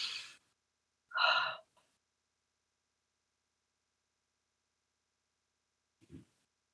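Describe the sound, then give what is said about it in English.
Deep breaths, inhaling and exhaling: two airy, breathy breaths close together, then a long silence and a faint, short breath near the end. “what if we just take some deep breaths for a few moments? Deep inhales and exhales.”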